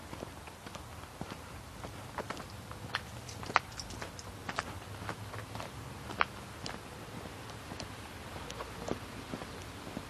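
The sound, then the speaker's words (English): Footsteps of people walking at an unhurried pace: many soft, evenly spaced steps that continue throughout over a steady low background. “Well, we're walking. We're not walking very fast, but we're walking.”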